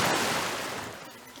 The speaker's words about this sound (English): You guys just see this large torrent of water shoot out from the kitchen in somewhere at Otto, and it pulls him or pushes him out of the way back to you guys.